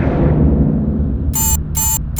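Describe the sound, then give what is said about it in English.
A timer alarm beeps in short, shrill electronic bursts, a few in a steady rhythm, over a loud, constant low rumble. “What the hell is that? I set a timer.”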